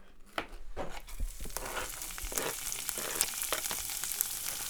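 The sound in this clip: Lemon zest sizzles in a frying pan over gentle heat, a steady, fairly quiet crackle dotted with small pops and no voices.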